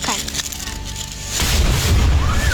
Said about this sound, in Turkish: Patlamanın şiddetiyle çadır sarsıldı.